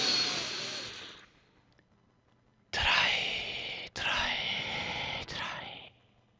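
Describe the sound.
A deep breath drawn into the belly and let out again during a guided relaxation, heard as two soft, airy rushes. The first is short, then comes a pause, then a longer, slightly broken stretch of breath.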